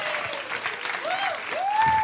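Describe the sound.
Audience applause: a steady burst of clapping that builds slightly toward the end, with a voice or two calling out over it.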